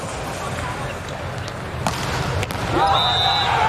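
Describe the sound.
A volleyball serve struck for an ace during a match: a couple of sharp ball impacts cut through steady crowd noise and voices, and the crowd swells louder afterward.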